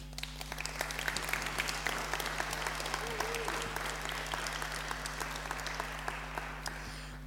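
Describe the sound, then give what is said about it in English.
Audience applause welcoming a guest onto the stage: dense, steady clapping that runs the whole way through at a fairly soft level, over a constant low electrical hum. “I wonder, could you put your hands together and welcome Rebecca?”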